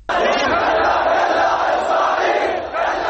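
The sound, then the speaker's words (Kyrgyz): Thousands of protesters gathered near a main square and the main university in Baghdad chant anti-US slogans, a dense, loud wall of massed voices sustained almost without pause. “Аль-Хурия аянтына жана Багдаддын башкы университетинин жанында чогулган миңдеген адамдар Ирактын жиректерин булгалашып АКШга каршы уран чакырып жатышты.”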